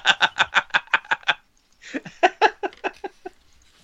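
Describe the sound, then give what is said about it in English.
A dog gives rapid, high yips in two quick runs of many short, evenly spaced bursts separated by a brief pause, loud and sharp, with no talk. “That was my dog.”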